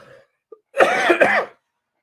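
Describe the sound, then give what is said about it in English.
A person coughs in a loud, rasping fit of two joined bursts, preceded by a faint short blip, with silence before and after. “I need to edit this out, huh? All this coughing.”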